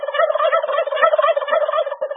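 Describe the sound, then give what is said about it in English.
Turkeys gobbling frantically as they dash toward their yard, a loud, continuous clamor of many overlapping, harsh calls with no pauses. “The turkeys gobbled even more and made a frantic dash toward their yard. Feathers flew, and the screech of the gobbling turkeys was deafening.”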